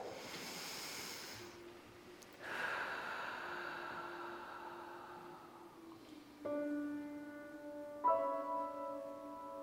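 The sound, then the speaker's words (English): A deep breath during a guided meditation: a soft, airy inhale, then a longer, gentler exhale that slowly fades, followed by a few quiet ringing tones. “I invite you to close your eyes, Let's start by taking that deep breath.”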